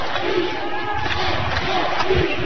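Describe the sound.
An arena crowd at a game chanting "Let's go": a loud, rolling roar of many voices that holds steady throughout, with a voice talking over it.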